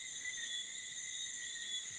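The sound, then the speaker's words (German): Crickets chirping in a continuous, high, steady trill at an even level, with no voices. “die Grillen zirpen”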